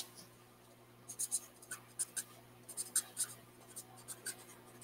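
Handwriting scratches, a series of short scratchy pen strokes in uneven bursts, with a steady low hum beneath and no talking.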